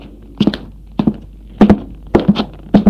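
Footsteps of a man coming down the stairs: five measured, evenly paced thuds, each with a slight double tap, heard alone.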